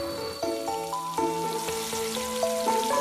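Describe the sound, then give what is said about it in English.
Food frying in a pan during home cooking: a steady crackling sizzle and hiss under soft melodic music. “Hey, mommy, my wife is cooking something delicious.”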